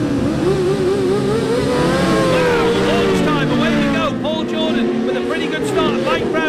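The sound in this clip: Racing motorcycles rev and launch at the start of a race. The engines make a loud, continuous whine of layered tones that waver and shift in pitch throughout.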